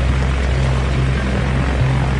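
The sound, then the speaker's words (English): Loud, steady drone of a twin-propeller Twin Otter aircraft arriving, a continuous low engine hum with a constant tone throughout and no voices. “His passengers are all on board the Twin Otter that's just arrived.”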